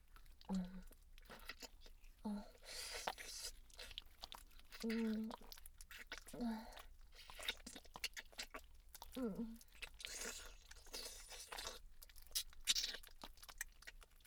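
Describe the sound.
Faint, wet slurping and smacking mouth sounds of licking a slimy, lotion-like fluid, coming as an irregular series of soft smacks and crunchy clicks with brief low vocal sounds between them.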